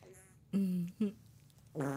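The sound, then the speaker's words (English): Farts: three low, buzzy bursts, the first longest, a short one after it, and a third starting at the end, fairly faint against a quiet background. “God, I can't stop farting. Goodness, what's wrong with me?”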